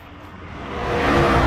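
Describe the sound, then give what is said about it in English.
A car drives through nighttime city streets, its engine and road noise swelling steadily louder over a second and a half. “Now Liam's driving through nighttime city streets.”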